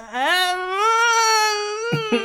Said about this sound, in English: I like your baby noise.